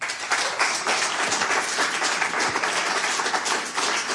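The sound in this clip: Applause from an audience welcoming an author onto the stage at a talk event, a dense, steady patter of many hands clapping that holds at an even level for the whole stretch, with no voices on top.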